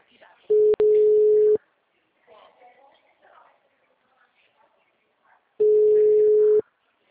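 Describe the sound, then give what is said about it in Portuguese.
A telephone ringback tone sounds on a call as two steady, mid-pitched one-second tones several seconds apart, with faint murmuring voices in the quiet gap between them. “Alô? Tá chamando.”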